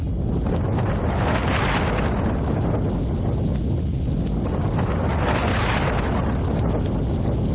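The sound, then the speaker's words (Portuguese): Strong wind of a whirlwind roars as a dense, steady rushing noise that swells and eases in two broad waves, with no voices over it. “Que barulho é esse? Nossa, que vento forte! Nossa, esse é um redemoinho!”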